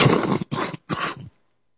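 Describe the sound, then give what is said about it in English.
Hacking cough from a man with a cold lingering for weeks, three rough, raspy bursts in quick succession, the last slightly longer, then silence. “excuse me for hacking. I caught a bug 2 weeks ago, 3 weeks ago now. It's still hassling me.”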